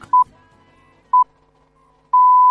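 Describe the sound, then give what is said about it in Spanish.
Radio time signal pips marking half past six in the morning: two short, identical beeps one second apart, followed by a long sustained tone at the same pitch that runs to the end. “Y aquí está el top del segundo, marcando las seis y media de la mañana.”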